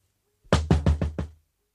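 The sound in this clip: Knocking, five quick sharp raps in a steady, even rhythm, loud and alone with no voices, over in well under a second.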